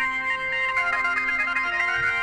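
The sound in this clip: A GarageBand sample is played through a phone into a microphone: a steady, synthetic-sounding chord of sustained tones that shifts notes partway through, with no talking over it.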